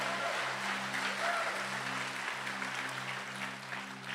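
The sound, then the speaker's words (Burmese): A church audience clapping hands in praise during a Sunday sermon: steady, continuous applause from many people at a moderate level over a low, constant hum. “အာမင်လက်ခုပ်တီးပြီးတော့ချီးမွမ်းကြရအောင်”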